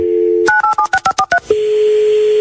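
A telephone call is dialed. A steady dial tone gives way to a quick, evenly spaced run of touch-tone key beeps, and a steady line tone follows.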